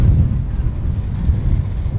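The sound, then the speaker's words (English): Wind blows hard over the microphone at an off-road racing event where grit is in the air, making a steady low rumbling roar with no breaks. No one speaks. “I don't like the wind either.”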